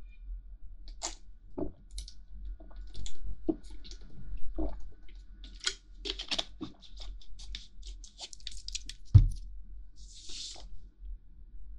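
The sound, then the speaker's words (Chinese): A person sipping and swallowing water, heard as a string of small, quiet wet mouth and handling noises with a brief soft hiss near the end. “不好意思，我喝一口水。”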